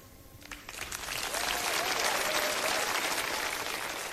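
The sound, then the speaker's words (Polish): Applause from a concert audience breaking out during a piece of music, starting with a few scattered claps and swelling into a dense, steady wash of clapping that holds to the end. “Czasami tak bywa, że te oklaski słychać w różnych miejscach utworu, w różnych częściach utworu.”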